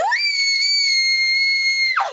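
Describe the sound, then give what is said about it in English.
A person lets out a single sustained, high-pitched scream lasting about two seconds, holding a steady pitch before cutting off sharply. “All right, you scream, and the thing jerks backwards as you scream”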